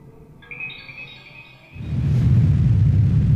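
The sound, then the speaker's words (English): A rocket makes a bumpy touchdown on a planet: a thin, high whine with layered tones comes first, then a loud, steady roar of deep rumbling takes over and lasts to the end. “Dick prematurely rockets off to the planet below. After a bumpy landing, he is hoping to find his friend.”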